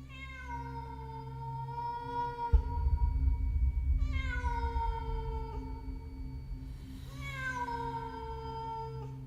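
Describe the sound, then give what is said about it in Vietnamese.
Cats meowing at night, including a black cat on a rooftop. The calls are long, wailing cries that slide downward in pitch, a few drawn-out meows heard over a low rumbling background. “Tiếng mèo kêu, nghe cứ như tiếng trẻ con khóc trong đêm.”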